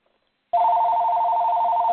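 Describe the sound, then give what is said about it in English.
Telephone ringing for a call-in caller on a wrestling radio show: after a brief silence, a steady electronic two-tone ring starts abruptly and holds unbroken at even loudness to the end. “Well, we got a caller and someone calling in at this moment.”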